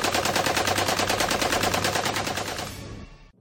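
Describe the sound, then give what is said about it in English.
Heavy .50 caliber machine gun firing from a roof turret: a loud, continuous stream of rapid, evenly spaced shots that rattles on for about three seconds, then tapers off and cuts out. “you're going to man that 50 cal on the roof turret”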